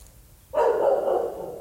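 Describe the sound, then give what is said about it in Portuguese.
A dog barks loudly: one long, drawn-out bark that breaks in suddenly after a quiet moment and holds steady to the end, with no talk over it. “Eu ia falar parou, ele latiu.”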